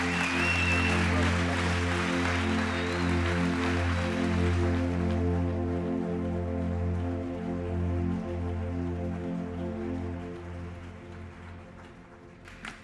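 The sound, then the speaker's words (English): A church audience applauds after a visiting pastor is welcomed to the platform. The clapping sits over sustained keyboard chords and thins out gradually toward the end. “Hey, can we just give Jesus a bigger hand than that right now?”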